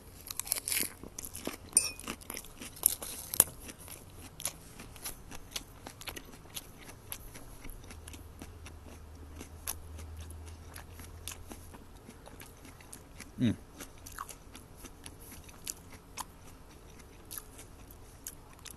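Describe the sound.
Crunchy salad being bitten and chewed: many small, crisp crunches in an irregular rhythm, faint and close, with no talking.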